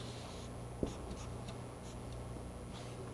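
Pen scratching on paper while drawing a picture of a pregnant woman: faint, light scratchy strokes, a few short ones in a row, with one sharp tick early on.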